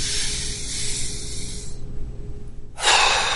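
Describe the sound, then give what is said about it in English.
A person doing a forceful breathing exercise: a long hissing stretch of breath, a quieter pause, then a sudden explosive rush of air that stays loud and steady to the end. “So I did a three short breath. Did a one explosive and a long breath. Explosive first and slowly let the residues out.”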